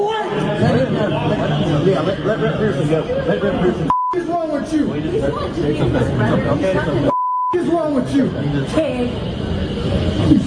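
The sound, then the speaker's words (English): Two censor bleeps, each a steady mid-pitched tone, cut over swearing during a heated confrontation with a law enforcement officer. Loud crowd chatter and raised voices fill the rest. “We're going to have to bleep out what he said to this fine law enforcement officer”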